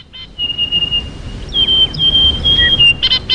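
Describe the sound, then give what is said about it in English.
High, thin whistling calls of a Western Ground Parrot, a rare Australian bird: several drawn-out pure tones, some sliding slightly in pitch, over a low rumbling background. “I believe it's the sound of the Western Ground Parrot, one of Australia's rarest birds”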